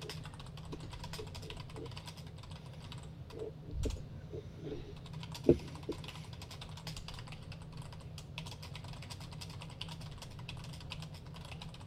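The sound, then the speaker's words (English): Typing on a computer keyboard: many rapid, uneven key clicks over a steady low hum, with a couple of slightly louder taps partway through. “I typed wave at Beatmaster.”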